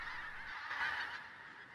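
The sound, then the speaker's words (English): A flock of birds flying over the treetops of estate grounds, heard as a steady, faint wash of honking calls with no voices. “Flocks of birds soar over the treetops in the grounds of Devonshire House.”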